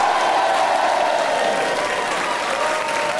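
Studio audience applauding at the Paris Studio in London during a live radio comedy show recording, a dense, steady wash of clapping that holds at an even, loud level throughout.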